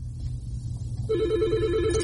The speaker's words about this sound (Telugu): I think caller call చేస్తున్నారు.